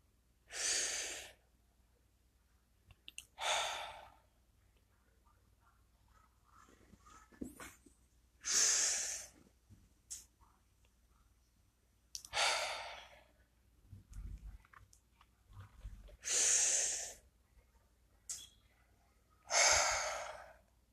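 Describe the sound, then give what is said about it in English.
Deep breathing exercise from a comfortable seated position: slow, deliberate breaths, inhales and exhales spaced a few seconds apart, soft and alone with quiet gaps between them. “Let's get into a comfortable position. Let's take three deep breaths.”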